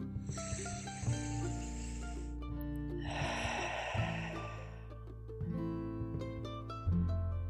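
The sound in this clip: Deep breaths drawn in and let out during a guided heart-focused affirmation meditation come as two long, airy rushes of air over a soft, steady musical drone.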